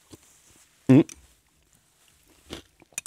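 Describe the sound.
Crunchy croutons crunch as someone eats warm pea soup with cream: one loud, sharp bite stands out, followed by a few fainter crunching and chewing sounds.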